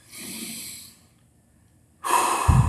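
A deep breath taken during a guided body check-in: a soft airy breath, a second of near silence, then a louder rushing breath with a snort-like burst at the end.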